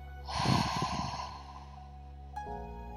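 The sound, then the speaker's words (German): A deep breath is drawn in during a guided meditation. It is a long, airy inhalation that swells and fades over about a second, over a soft, sustained tonal drone. “Und nochmal tief einatmen.”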